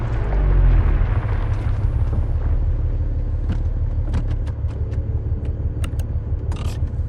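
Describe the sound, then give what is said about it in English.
A car pulling off an alley into a parking lot at night and coming to a stop in a film scene: a low, steady engine rumble, then a few faint clicks and scrapes toward the end. “He pulls into a parking lot, then parks.”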